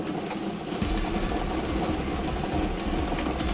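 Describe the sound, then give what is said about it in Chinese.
Continuous whirring churn of a lottery ball-drawing machine running for a 3D lottery draw, a dense mechanical rattle of tumbling balls held at a steady, moderate level throughout. “我们现场 3D 游戏的摇奖机也是正式启动了，来等待一下即将产生的第一个 3D 游戏开奖号码，看一下会是几号球。”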